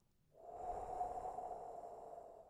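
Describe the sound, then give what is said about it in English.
A deep breath through the mouth during a guided relaxation exercise: one soft, airy rush of breath that swells quickly and holds steady for about two seconds, faint and alone. “One more breath, big inhale, and exhale through your mouth,”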